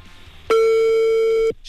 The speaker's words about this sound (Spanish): Tu llamada está siendo transferida y se cobrará al terminar los tonos.